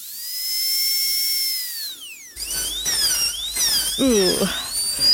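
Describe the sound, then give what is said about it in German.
A dentist's drill gives a loud, high-pitched whine that holds steady for about two seconds and then slides down in pitch, followed by a busier, warbling stretch of tones and noise. “Roger Hofmann, für Sie als Zahnarzt ist dieses Geräusch sicher ganz normal.”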